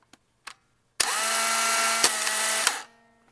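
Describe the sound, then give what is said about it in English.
A Polaroid 3000 rangefinder instant camera, which takes SX-70 film, fires up. A couple of faint clicks come first, then a loud, steady buzzing motor whir runs for under two seconds with small clicks inside it before stopping abruptly. “Most of you will know that as a Polaroid quick-step noise. So this is the Polaroid 3000.”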